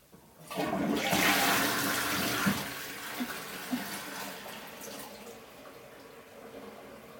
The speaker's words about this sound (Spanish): Observa el papel dentro del váter y tira de la cadena. Mira cómo desaparece.